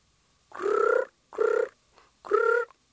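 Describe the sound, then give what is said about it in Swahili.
Dove cooing beside a plate on a king's table laden with food: three loud, drawn-out calls with short pauses between them, with no voices. “Na kabla hajaanza kula, njiwa akatua kando ya sahani lake.”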